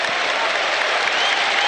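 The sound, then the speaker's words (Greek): Olympiacos fans applaud at a basketball final as Sasha Vezenkov prepares his second free throw, a dense, even burst of crowd clapping with no break. “η πρώτη βολή έξω, χειροκρότημα από τους φίλους του Ολυμπιακού για τη δεύτερη προσπάθεια του Σάσα Βεζένκοφ.”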